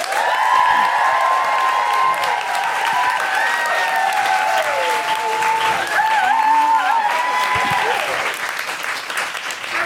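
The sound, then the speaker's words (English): A live audience claps loudly and lets out rising and falling woohoo cheers to welcome comedian Roisin Conaty. The applause stays dense and steady throughout, with whooping voices weaving over it. “Put your hands together and make big guilty feminist woohooing noises for Roisin Conaty.”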